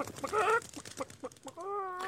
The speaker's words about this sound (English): Hazar and that ugly little chicken of his just fit right in